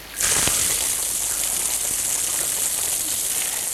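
Water gushes from a pipe fed by a reservoir: a loud, hissing rush that starts abruptly and keeps up a steady, dense roar, with no talking over it.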